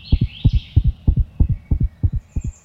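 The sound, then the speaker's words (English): A rapid heartbeat, presented as a chipmunk's, pulses in a quick, steady series of low double thumps, loud and even, with a faint high hum above. “For example, chipmunks have a normal heartbeat of 350 beats per minute,”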